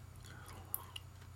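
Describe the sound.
Faint, soft chewing of a cheese and ham sandwich with salty ham, a low moist mastication with a couple of small crisp clicks and no talk.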